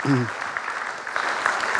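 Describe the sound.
Faint applause from an audience welcoming a substitute speaker who stepped in at short notice at a lecture event; a brief voice opens, then an even patter of clapping continues.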